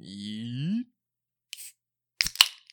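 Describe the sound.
Beer cans are cracked open after a man speaks briefly. A faint click is followed by sharp pops and a quick fizzing hiss.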